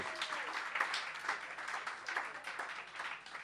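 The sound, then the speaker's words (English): Faint audience applause for a performer at a comedy show, a steady wash of many hands clapping that continues evenly throughout. “A little round of applause for Toby there. He nailed that.”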